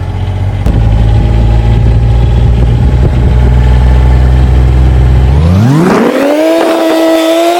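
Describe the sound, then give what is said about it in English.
A Gator utility vehicle engine running during a ride: a loud, steady low idle that rises sharply in pitch as it revs up, then holds a higher, steady whine. “she gets to experience this high flying ride in the Gator. Here we go. Let's roll. It's so loud, but I love it.”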